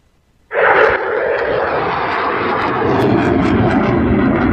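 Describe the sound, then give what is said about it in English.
An F-16 fighter jet flying overhead: a sudden, loud, broad engine roar bursts in after a short silence and holds steady and powerful to the end. “That is the sound of an F-16.”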